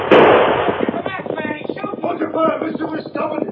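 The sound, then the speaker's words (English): A gunshot fired over someone's head in a radio drama rings out as one sharp, loud crack at the very start, after which voices talk over a busy background. “You reach for gun. I'm firing over the head,”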